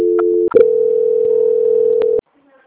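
A telephone tone plays during a call transfer, a steady electronic hum. A sharp click briefly breaks it, then a single loud constant tone resumes before cutting off abruptly into silence.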